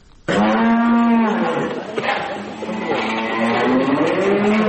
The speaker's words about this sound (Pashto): په کندهار کې د غواګانو یو کوچنی فارم